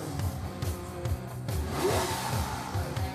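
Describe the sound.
A car engine revving, a steady mid-pitched roar with repeated throttle surges and a slight climb in pitch near the middle, heard alone.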